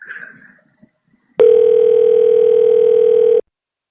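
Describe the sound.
A steady telephone tone plays while a call is transferred to a hotel front desk, one loud unbroken note of about two seconds that starts and stops abruptly, preceded by a few faint brief sounds.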